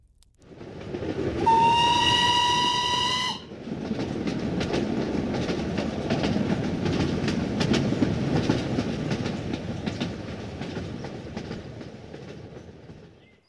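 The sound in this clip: A train travels on rails. A loud, steady whistle blows for about two seconds, then the train carries on with a continuous rumble and a dense, rhythmic clatter of wheels on track.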